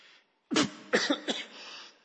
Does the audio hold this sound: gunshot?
no